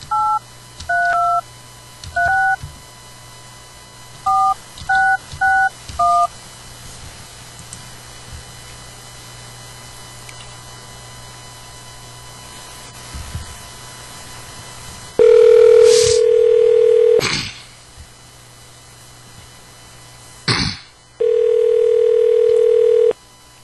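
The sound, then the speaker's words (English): Touch-tone keypad beeps dial a phone number in a quick series of short tones in two groups, then two long, steady ringback tones sound on the line, separated by a pause with a brief click. “Let's give Marcy a call and see what that bad motherfucker's been up to.”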